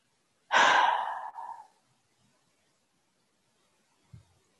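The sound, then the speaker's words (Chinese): A breath exhaled after holding it for three seconds during a guided breathing exercise: one long, airy outward whoosh that fades, with a brief soft breath sound a few seconds later. “现在我们大家吸一口气，hold 住3秒钟，一、二、三，然后吐气。”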